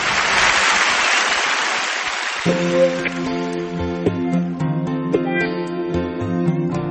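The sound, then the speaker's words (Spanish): A loud wash of audience applause fills the first couple of seconds, then fades as music with sustained harmonic tones takes over. “Aplaudiments per tots ells.”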